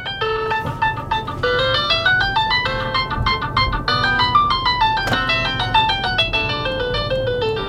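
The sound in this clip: A phone ringtone plays a bright electronic melody of quick stepping notes that keeps repeating loudly and continuously, with no talk over it.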